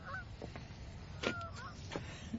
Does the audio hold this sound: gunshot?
no